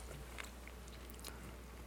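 Faint biting and chewing as a person takes a second bite of ice cream, with a few soft, brief crunchy clicks over a very quiet background.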